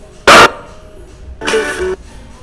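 A dog barks twice from a television set: one short, sharp, loud bark, then a longer, weaker bark, with faint background noise between them.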